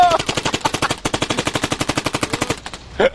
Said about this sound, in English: So the Gatling gun will fire rapidly, but only in fits and starts.